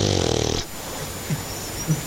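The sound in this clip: A dog growls and wheezes in a short, rough, buzzing burst, followed by quieter raspy breathing with a couple of faint snuffles.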